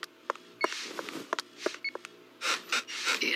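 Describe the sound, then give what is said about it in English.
A respirator machine breathing for a hospital patient gives rhythmic hissing puffs of air, preceded by a few sharp clicks and short electronic beeps. “Hey, what's Lucky hooked up to? A respirator. It breathes for him.”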